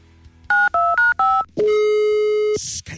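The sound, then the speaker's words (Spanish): Touch-tone telephone dialing: four short electronic beeps in quick succession, then one long steady tone, ending with a brief burst of noise. “A ver, la vamos a marcar otra vez. Una oportunidad más ya.”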